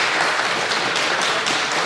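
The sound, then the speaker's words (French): Audience applause at a live guessing game, as the crowd claps to mark an answer as false: dense, even clapping fills the whole stretch at steady volume with no pauses. “Vous applaudissez si c'est faux.”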